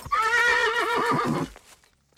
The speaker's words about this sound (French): C'est la première fois que tu fais du cheval? Oui, mais c'est pas facile.